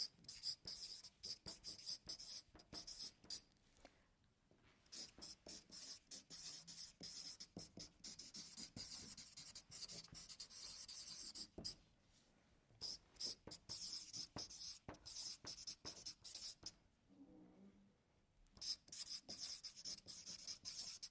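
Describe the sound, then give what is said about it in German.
Names written down by hand: many quiet, scratchy pen strokes come in quick clusters, broken by several short pauses across a long stretch. “aber ich schreibe es euch mal her.”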